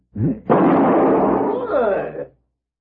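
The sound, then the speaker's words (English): A gunshot knocks a pistol from a man's hand: one loud, rough blast with a long, harsh tail, preceded by a short vocal cry. “He's good with guns. Very good, senor. You just shot the gun from my hand.”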